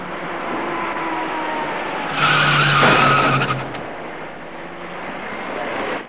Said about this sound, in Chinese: 驾车由东向西行驶的白色小客司机没有注意到那位逆向而来的骑车人，在骑车人准备转弯进入路口时，躲闪不及的白色小客将他撞翻在路面上